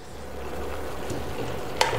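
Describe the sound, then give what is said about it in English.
Steady sizzle of a nacho topping cooking in a pan as fresh coriander is stirred in, with soft scraping throughout. A single sharper clack sounds near the end. “And just turn off the gas and mix that in.”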